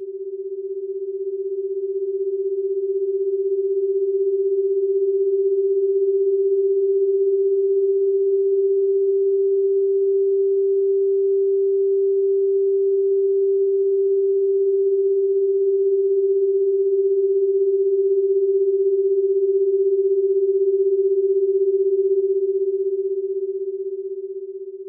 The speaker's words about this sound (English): that's an example of binaural beating in which you say uses slight frequency offsets between the left and the right side to give the brain an illusion that the sound is coming from some location that it's really not coming from